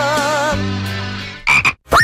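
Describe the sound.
Frog croaking in a radio advert: a long, buzzy, harmonic croak with a wavering tone, followed by a few short, sharp croaks near the end, with no talk.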